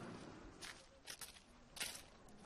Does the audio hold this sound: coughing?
no